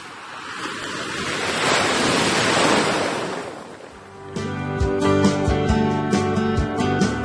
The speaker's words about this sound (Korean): 시원한 파도 소리가 듣고 싶어지는 요즘.